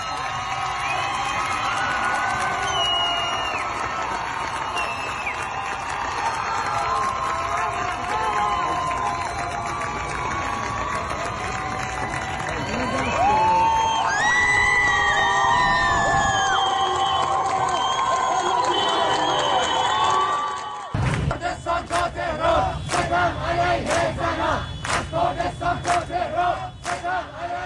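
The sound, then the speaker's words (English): Crowds shout during the massive women-led protests in Iran, a dense, loud roar of many voices. Near the end it turns into sharper, pulsing bursts of rhythmic shouting. “The sounds you are hearing are the sounds of massive protests that have been taking place in Iran throughout the last 5 days,”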